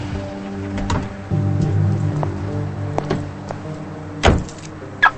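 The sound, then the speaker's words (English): A car pulls in beside another car in a parking lot, its low engine hum running steadily, then two sharp thumps near the end like a car door. “He parks, and she pulls in beside him and gets out of the car.”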